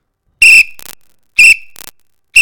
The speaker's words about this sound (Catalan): donant pel sac aquí amb el xiulet